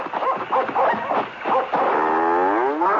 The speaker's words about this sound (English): Oh, my God, that's a bull. Hey, he's coming after us.